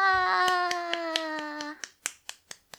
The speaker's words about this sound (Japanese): 一人しかいないから一人で拍手してる。